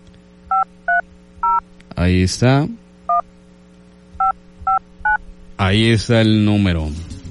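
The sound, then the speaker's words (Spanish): Touch-tone telephone dialing for the number 222: seven short, steady keypad beeps, three and then four, with bursts of voice between them. “Vamos a marcar rápidamente 222.”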